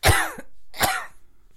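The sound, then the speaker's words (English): A dog coughing: two harsh, raspy hacks, the first longer with a rough throaty tail and the second shorter, heard alone with no talk. “When your dog's coughing, he's coughing for a cannoli.”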